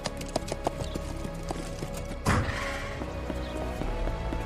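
Clip-clop of a horse pulling a cart, steady hoof beats running throughout with one heavier thud about halfway through.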